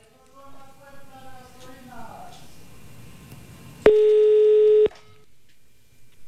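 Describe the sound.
A telephone tone heard while placing a call: a single steady, pure electronic tone lasting about a second, after people talk quietly beforehand.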